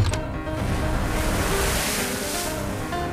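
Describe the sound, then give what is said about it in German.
Heavy sea: a continuous loud wash and roar of high waves, fifteen feet and more, beating against the cable-laying steamship Great Eastern as it cuts through them. The noise is steady throughout. “Schwere See. Das Kabel rollt aber weiterhin sauber ab. Wellen von 15 Fuß Höhe und mehr prallen auf die Great Eastern, die durch sie hindurchschneidet”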